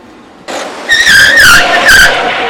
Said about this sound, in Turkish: Her şey ters döndü. Araba takla attı.